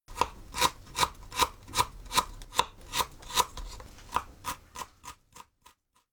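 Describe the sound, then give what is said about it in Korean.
A knife finely chops peeled ginger on a board in many crisp, evenly spaced cuts. The steady rhythm grows fainter and slightly quicker toward the end. “먼저 생강 껍질을 벗겨 잘게 씁니다.”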